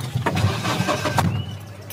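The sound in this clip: A vehicle engine rumbles as the car slowly sets off to drive: a low, steady, moderately quiet hum of the motor throughout, with faint higher mechanical noise above it.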